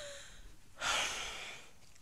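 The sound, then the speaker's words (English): A person wheezes once: a single breathy, rasping exhalation that swells suddenly and then trails off over about a second, heard alone with no talking. “Can you hear me wheezing?”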